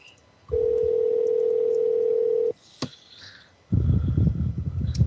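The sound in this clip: Telephone dial tone at the start of an outgoing call: a steady, unbroken mid-pitched tone lasting about two seconds that stops abruptly, followed by a sharp click and then rougher, noisier sound.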